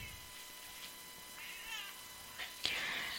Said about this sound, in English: The fuck are you doing to my cat?